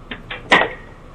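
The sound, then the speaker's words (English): Three sharp knocks on a door, a small boy beating on it from the porch; the third knock is the loudest and rings out briefly. “Little boy, you better get your ass from off my porch beating on my door like this.”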